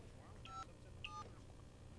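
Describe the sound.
Telephone keypad tones dialing a phone number: two short, clear dual-pitched beeps separated by a brief pause, over a low steady hum.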